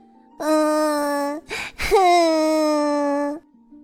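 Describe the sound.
A voice imitates a little fairy crying in a children's story: two long, loud wailing cries with a steady, high, tuneful pitch, separated by a short breathy gasp.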